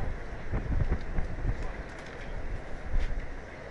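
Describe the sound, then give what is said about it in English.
Wind gusting at Riders Field during a baseball game, a rough, low buffeting rumble that swells and eases in uneven gusts, with no voices. “Wind takes hold at Riders Field.”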